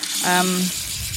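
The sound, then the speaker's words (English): Running tap water rinsing a rubber washing-up glove, a steady broad hiss throughout, with a brief voiced vocal sound rising over it partway through. “Just washing off my glove.”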